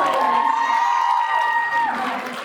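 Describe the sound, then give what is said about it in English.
Audience giving another round of applause, loud clapping mixed with cheering and a sustained high whoop that fades slightly toward the end. “All right, give him another round of applause.”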